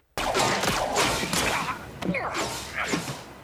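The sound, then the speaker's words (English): Blaster fire from police droids attacking Wrecker in a Star Wars scene: a loud, dense barrage of zapping shots and sharp swishes with thudding impacts, rapid and irregular throughout. “I wanted to play this clip here from, this is Wrecker being under attack. This is him getting shot at pretty well by some police droids.”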